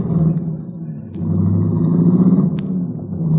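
Steady low engine rumble of a car being driven, a continuous droning hum that swells a little after the first second and holds at a fairly loud level to the end.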